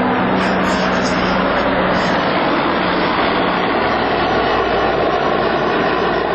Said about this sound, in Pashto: د مرجی پر اسمان د بارنیو ځواکونو دوه چورلکې، یوه جوټ او یوه هم ډیره ستره کشفي الوتکه ګرځي.